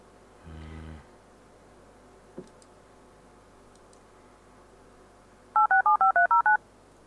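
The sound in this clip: Touch-tone telephone dialing, with seven quick, evenly spaced beeps in a rapid run. A brief low buzz and a faint click come earlier, over quiet background hiss.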